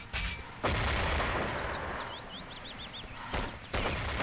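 A Spaz 12 shotgun fires in a clan video game match. A few heavy, booming blasts come in two pairs, one pair at the start and one near the end, with rumbling decay between them.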